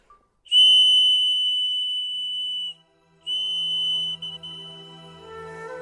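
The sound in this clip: Double-tone clay whistle (ni qiuqiu), freshly shaped as two fish and a peony and not yet fired, sounds two long, steady, bright high notes with a short gap between them.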